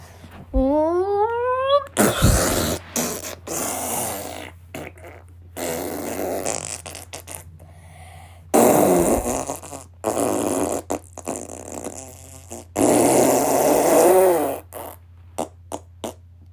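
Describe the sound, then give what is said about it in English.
Loud, prolonged diarrhea farts come in several long, wet, sputtering bursts with short pops between them. The sequence opens with a rising squeaky tone. “I can't breathe, it's so disgusting. That was my full-on diarrhea.”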